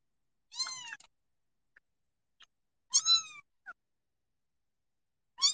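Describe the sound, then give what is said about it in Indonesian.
A cat meows three times, each meow clear and harmonic with a falling pitch, separated by quiet pauses with a few faint small noises between. “bunyi kayak gitu, kamu mau aku ngeong-ngeong?”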